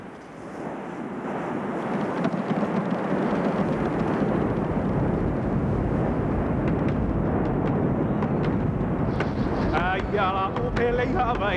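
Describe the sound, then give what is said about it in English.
The continuous roar of a volcanic eruption: a dense, rumbling rush that swells over the first two seconds, then holds steady and loud to the end. “Volcanic eruptions like this one keep the flow of life going, for from the fires of the earth come the very stuff of which life is made.”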